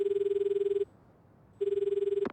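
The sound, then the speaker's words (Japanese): A smartphone gives a ringing tone while a call is being placed: two pulsing, buzzy rings at a steady pitch, separated by a short silence, with a brief sharp click at the end. “悟はスマホを取り出し田中に連絡を入れた。”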